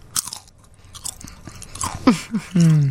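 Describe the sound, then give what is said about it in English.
Crunching and chewing of a barbecue potato chip: a series of sharp, irregular crisp crunches and bites, loud and dry, with short gaps between chews and no talk over them. “This is what a barbecue potato chip sounds like when you chew it on the air.”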